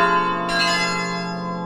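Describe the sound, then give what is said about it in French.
Church carillon bells ringing in a bell tower, an instrument enlarged with sixteen new bells; sustained, rich metallic tones hold steadily, with a fresh strike adding brightness partway through. “on a même rajouté 16 cloches nouvelles pour qu'aujourd'hui on ait un carillon qui soit du même niveau que les grands carillons du nord de la France”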